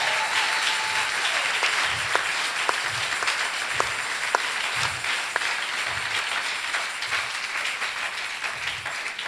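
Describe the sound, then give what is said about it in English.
Congregation clapping hands together in church, a dense, continuous burst of applause with a steady, regular beat running through it, sustained from start to finish without voices. “you can clap your hands for the Lord.”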